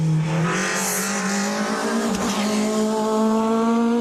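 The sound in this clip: Engine of a Peugeot 306 Maxi rally car warming up on a damp track, droning steadily and loud throughout with a slight upward drift in pitch toward the end.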